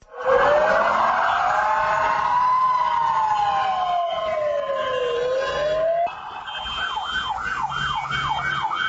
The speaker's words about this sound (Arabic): أصوات اعتادت عليها أسماع المواطنين يومياً أثناء تنقلاتهم من منطقة إلى أخرى. هذه الأصوات لا تدل على سيارة إسعاف تنقل مريضاً، وإنما لمواكب مسؤولين تحصنوا داخل سيارات مظللة الشبابيك